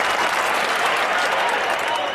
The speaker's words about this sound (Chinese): 掌声一响，国声开讲，感谢各位天天捧场。